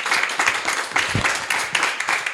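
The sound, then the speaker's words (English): Audience applause after a reading at a book event: a brief, dense burst of clapping from many people, loud and slightly uneven in texture. “Big round of applause.”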